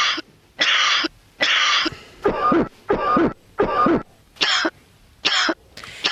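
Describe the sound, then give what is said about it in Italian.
Dry cough played as a recorded example for a health discussion: seven harsh, loud bursts spaced at a fairly regular rhythm with brief silences between. The middle coughs carry a hoarse, voiced edge, and no one talks. “di mandarci il primo file. Abbiamo la tosse secca.”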